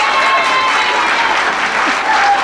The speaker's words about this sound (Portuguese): eu quero aquele efeito de salva de palmas de programa de auditório, porque ela merece.